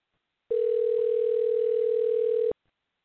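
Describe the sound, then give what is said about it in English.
A telephone rings on an outgoing call as one steady, even tone lasting about two seconds, starting and stopping abruptly against near silence. “I'm trying to call her now.”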